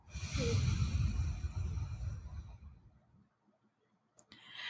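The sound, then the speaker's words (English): A slow exhale through the nose during a stress-relief breathing exercise: a steady, breathy hiss lasting about three seconds, then tapering to near silence, with a brief noise at the very end. “Inhale again. Hold it and then exhale.”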